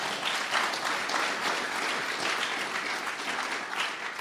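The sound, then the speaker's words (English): A live studio audience applauds with steady, dense clapping that holds at an even level for about four seconds before talk resumes. “We have a live studio audience, and you can tell because they make sounds like this.”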